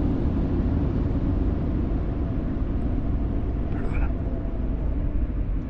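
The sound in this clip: A car being driven fast gives a steady, loud, broad rumble of engine and road noise. The sound runs unbroken from start to finish.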